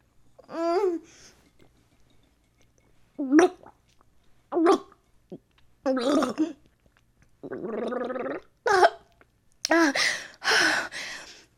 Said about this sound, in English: Oh my god, there was too much to gargle. I had to swallow some first.